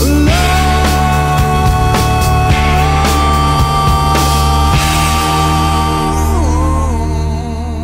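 Loud rock music with an echoey guitar, sustained ringing tones over a steady full band, playing continuously before easing slightly at the very end.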